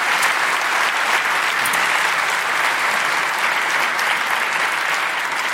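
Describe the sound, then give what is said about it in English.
An audience applauds to welcome guests onto the platform at a discussion about a Democratic Party debate, with dense, even clapping from many hands held loudly throughout. “Do please join your hands together and welcome them.”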